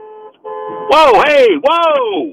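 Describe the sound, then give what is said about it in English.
A car horn gives two short, steady toots on the road, and then a man speaks loudly. “All right, well, there was a toot, so, but they tried to run me off the road.”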